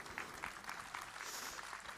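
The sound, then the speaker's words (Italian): Faint audience applause at a concert greeting a singer as she is introduced, a soft, even patter of many hands clapping without a break for two seconds. “Un grande applauso”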